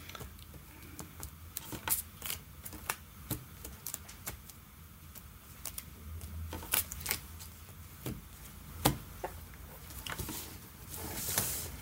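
Playing cards being shuffled repeatedly: many soft, irregular riffles and crisp clicks over quiet background noise.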